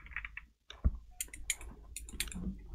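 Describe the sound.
Keys clicking on a computer keyboard during an office exchange: a few sharp, faint taps at an irregular pace over low background hiss, with no talk.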